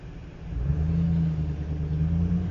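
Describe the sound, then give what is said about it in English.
A truck passes by with a steady, low engine rumble and road noise. The drone swells after a moment and then holds as a continuous hum with no voices. “Another piece of shit passing along. That's a truck that don't kill.”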